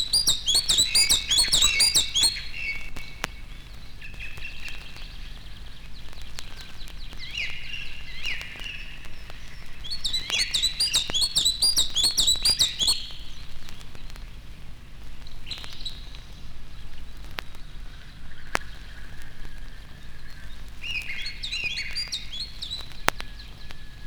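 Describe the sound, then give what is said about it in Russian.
A Siberian chiffchaff, also called the sad warbler, sings three bright, high, twittering phrases spaced several seconds apart. Fainter chirps fall between them over a steady soft hiss. “грустно поет печальная пеночка, близкая родственница европейской пеночки теньковки. Пение не мешает ей усердно отыскивать насекомых.”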